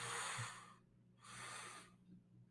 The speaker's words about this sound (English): Two deep inhales through your nose.